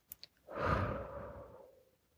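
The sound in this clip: One slow, soft breath out, drawn out like a gentle sigh during a guided breathing exercise, fading gradually after a couple of faint clicks at the start.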